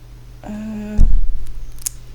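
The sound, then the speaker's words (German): A retractable ballpoint pen clicks as its refill is pulled back in, giving a sharp, fairly loud snap followed by a second, lighter click, with no voices. “Ich weiß nicht, ob du das hörst, das ist das Geräusch von meinem Kugelschreiber, wie ich die Mine einfahre, weil ich schon fertig bin.”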